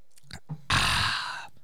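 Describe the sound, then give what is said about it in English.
A shot of Malort liquor being drunk: a couple of small gulping sounds, then a long, harsh, breathy burst that holds for nearly a second before cutting off. “let me go ahead and do my shot of Malort real quick.”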